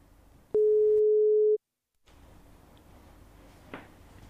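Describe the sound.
A telephone tone sounds while a call is being placed: one steady, low-pitched beep lasting about a second, then a brief silence before a faint hiss returns.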